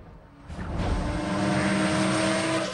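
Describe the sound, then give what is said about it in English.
Cars racing neck and neck at over 100, a loud, sustained engine roar that swells in after a brief quieter moment and then holds as a dense, droning rush with steady tonal whine. “The cars race neck and neck. The speedometer breaches 100. A beefy, ringed hand shifts the gear stick.”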